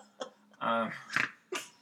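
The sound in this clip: A woman's snort among a few short, breathy nasal bursts, one longer and more voiced than the rest, all fairly faint.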